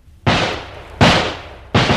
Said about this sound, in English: All 12 men begin shooting.